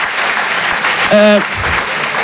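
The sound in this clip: Applause from a seated audience in a hall, a dense, steady patter of clapping hands that holds at an even level for about two seconds.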